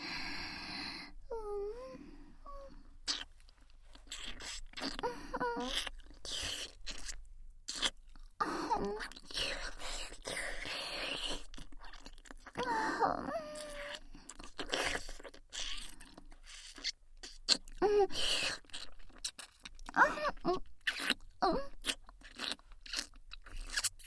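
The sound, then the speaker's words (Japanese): Wet kissing and lip-smacking sounds: many soft smacks and slurps in an irregular run lasting over twenty seconds, quiet and close, with no talk. “では改めまして、キスをさせていただきますわね。”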